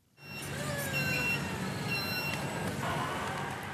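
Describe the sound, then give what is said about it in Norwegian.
Trucks weaving between pallet jacks and pallets of fish at a fish wholesaler in Oslo, a steady loud engine drone with faint whining tones that starts abruptly and holds throughout. “På fiskesentralen i Oslo kjører trøkkene slalåm mellom jekketraller og paller med fisk.”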